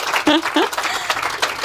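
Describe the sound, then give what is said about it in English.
Light scattered applause from an audience at a talk, a loose patter of many claps with a brief voice heard near the start. “Thank you. I see a little bit of applause. So if you want to join in,”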